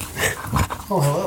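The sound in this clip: A dog whines and gives a few short yips on a show set, its high, wavering cries rising briefly over steady talking.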